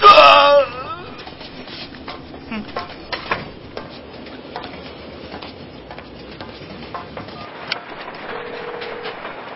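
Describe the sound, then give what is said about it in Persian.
A train slowing to a stop rattles and clanks in scattered metallic knocks after a loud opening burst, with a brief steady tone later on. “سلام مرا. چرا قطار داره وای میسه؟”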